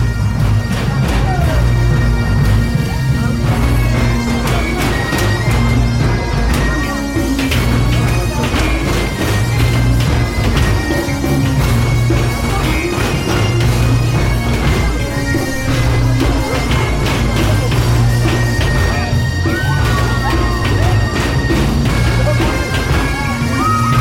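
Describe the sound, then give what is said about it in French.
Vigorous banging on burning metal drums at an outdoor fire-lit event, mixed with a loud bagpipe band. The strikes keep up a steady, dense rhythm under sustained droning pipe tones for the whole stretch. “Et puis surtout il y a des bidons enflammés sur lesquels on frappe vigoureusement. C'est ça.”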